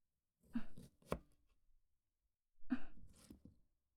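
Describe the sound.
A knife slices a washed lemon into thin rounds two to three millimetres thick while homemade cola is being prepared. A few soft, crisp cuts come in two quiet clusters, with no talking.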